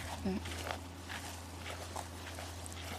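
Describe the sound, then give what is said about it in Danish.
Footsteps of people walking across a large field with cows nearby, soft regular steps at an even walking pace over a constant low hum, with a brief voice early on. “Vi går lige nu her på en stor mark, som lidt er tæt på jeres grund, hvor der er køer omkring.”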